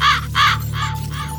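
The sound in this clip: Raven cawing in a radio jingle: two loud, harsh caws in quick succession, then two weaker, rougher calls.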